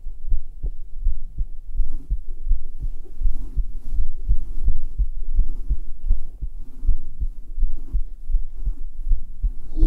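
A heartbeat is recorded against bare skin with a binaural microphone: many deep, soft thumps fall in a steady, even rhythm, loud and continuous over a low hum, with no voices.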